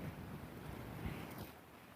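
Wind blows on a cold winter morning around 20 degrees, buffeting the microphone as a steady rushing roar with a brief gust near the middle.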